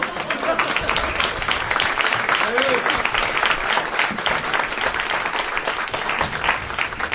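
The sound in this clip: Audience applause greets two comedians as they are welcomed onto the stage at a taped live show, a dense, steady clapping that holds at an even loudness for the whole stretch.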